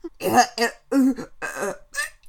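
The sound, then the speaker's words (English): Gagging and choking noises from a person, a few rough, throaty, voiced bursts with short pauses between them, like coughing mixed with retching. “All those gagging noises.”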